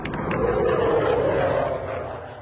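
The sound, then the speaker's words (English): An F-35 fighter jet roars as it arrives at Truax Field, the Air National Guard base in Madison. The broad engine rush swells, holds steady, then begins to fade toward the end. “After years of planning amid local opposition, the first in a new generation of fighter jets has landed at a Madison Air Base.”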